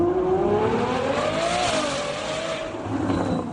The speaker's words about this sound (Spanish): Este es el sonido que hace su motor, ¿eh? El sonido de un motor de un modelo F12.